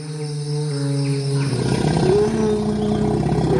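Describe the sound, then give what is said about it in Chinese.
An adult elephant in a forest lets out a deep, growling rumble. The low, throaty call holds steady at first, then turns rougher and broader partway through, continuing loudly to the end. “林中出现了一头庞然大物，这是一头成年大象。”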